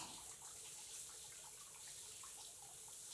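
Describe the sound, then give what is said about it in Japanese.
Water rinses and pours over a body, a steady, faint rushing hiss with small splashing flickers that runs on without pause and without talk. “しっかり全体を洗い流しますからね。”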